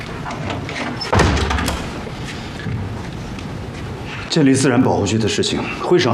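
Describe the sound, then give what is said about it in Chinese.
A door is shut with a heavy thud while people talk around it. A second loud thump follows a few seconds later. “把门关上。”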